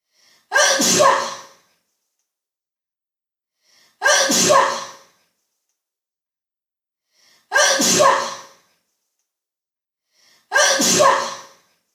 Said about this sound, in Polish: Kichanie.